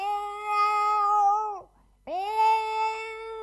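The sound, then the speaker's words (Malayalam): A pregnant cat meows twice, two long, loud, harmonic-rich cries separated by a short silent pause, the first sinking slightly in pitch as it fades. “ഇതാ ഇവിടുത്തെ ഒരു പൂച്ചയാ.”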